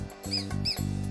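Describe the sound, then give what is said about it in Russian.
A mouse squeaking in two short, high chirps that each rise and fall, set over low sustained tones. “Это просто мышка.”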